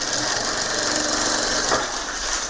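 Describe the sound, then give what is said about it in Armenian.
Rapid clattering of a sewing machine in a cramped Yerevan apartment, a fast, steady mechanical rattle running throughout. “որտեղ ավելի շատ կարի մեքենայի չխչխկոցն է լսվում”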